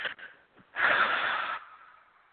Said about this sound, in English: Take a breath and blow it out.